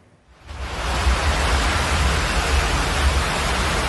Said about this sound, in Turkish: Şiddetli yağmur ve fırtına yurdun bazı bölgelerinde de etkili oldu.